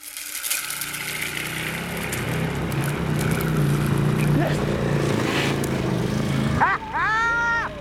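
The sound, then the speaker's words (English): A V-twin 1000 cc motorbike engine of nearly 200 horsepower powers a vehicle on sandy ground. Its loud, rough drone builds in the first seconds and holds steady, and a voice breaks in briefly near the end. “V-twin motorbike engine, 1,000 cc's, nearly 200 horses”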